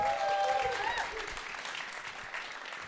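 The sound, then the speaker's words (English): Audience applause, soft and steady, with a thin rush of many hands clapping that holds at an even level from start to finish. “Yeah, let's give her a big round of applause.”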